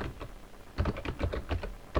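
Commands are typed on a computer keyboard, with quick, fairly faint clicky keystrokes that come in uneven bursts.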